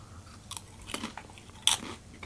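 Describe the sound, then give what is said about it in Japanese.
Crunchy chewing of a snack that has gone stale and soft after being opened: a few faint, crisp bites and chews at an uneven pace, with no talking. “このさっき開けたスナックもしっかりなんかしけっちゃってきてますけど 食べてください”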